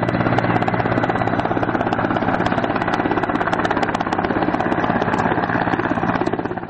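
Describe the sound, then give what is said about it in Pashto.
Apache military helicopters fly over a city's central districts, their rotors beating in a loud, rapid, even pulse over a deep engine drone. The sound holds steady throughout, with no voices. “اپاچې هلیکوپټر ساتونه کیږي چې د ښار پر مرکزي سیمو باندې ګرځي”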